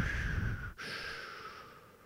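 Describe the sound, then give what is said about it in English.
A deep breath drawn in through the mouth, a steady airy rush that lasts about two seconds with a brief break partway through, quiet and without talk. “On the count of three, here we go. One, two, three, breathe in,”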